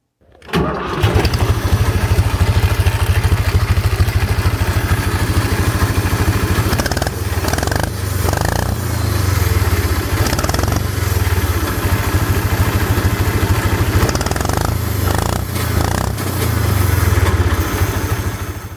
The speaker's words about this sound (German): Dann wollen wir doch den anderen mal anlassen, den McCormick 423.